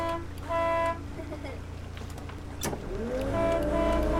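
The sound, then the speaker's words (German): A boat's motor chugs through the harbour of Chioggia, giving a steady low rumble. Sustained tonal toots rise above it briefly near the start and again toward the end. “Wir tuckern durch den Hafen von Chioggia.”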